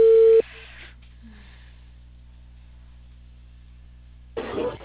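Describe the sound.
A telephone tone after a call has been cut off: one short steady beep at the start, then a long stretch of near-silent line hiss, ending in a brief burst of noise.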